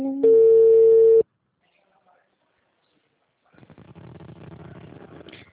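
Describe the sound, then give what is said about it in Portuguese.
Steady telephone ringing tone while a call is placed, one loud sustained tone lasting about a second, then a stretch of silence before a voice begins talking. “Tô ligando agora.”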